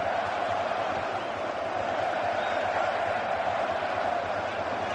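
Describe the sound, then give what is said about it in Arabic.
Bosnia and Herzegovina fans cheer at a football match in a Los Angeles stadium, forming a broad, steady crowd roar that stays even in loudness throughout. “صوت بوسني يعلو الآن، جمهور البوسني والهرسك الآن صوتهم أعلى، صوتهم أكثر وضوح، صوتهم مسموع الآن هنا في لوس أنجلوس.”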